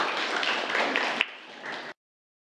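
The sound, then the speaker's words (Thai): Students clap for a classmate in a classroom after the classmate answers the teacher's question. The clapping is dense and steady, thins out, and then stops abruptly near the end. “ปรบมือให้กับเพื่อนนะครับนักเรียนนะครับ”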